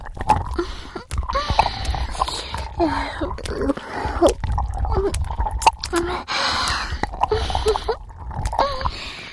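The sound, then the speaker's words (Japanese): Wet mouth sounds of saliva being mixed inside the mouth: many small squelches, clicks and smacks come one after another without a break, close and moist in texture and at moderate loudness throughout. “二人の唾液をお口の中にかき混ぜて、”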